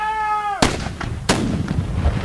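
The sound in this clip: Cannon fire at a War of 1812 battle reenactment of the attack on Queenston Heights: two loud, sharp booms about a second apart, each followed by a rumbling, crackling decay.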